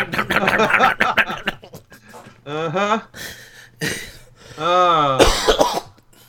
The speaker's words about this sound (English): Week 4 of this fucking cough.